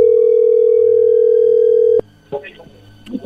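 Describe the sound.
Telephone dial tone as a call is dialed again: a loud, steady single-pitch hum holds for about two seconds, then cuts off with a click, followed by a few faint, brief sounds.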